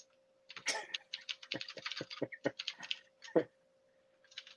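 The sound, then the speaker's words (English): Someone types a chat message on a computer keyboard. Many faint, quick keystroke clicks come in irregular bursts over a low, steady hum. “There you go. I typed it in the chat.”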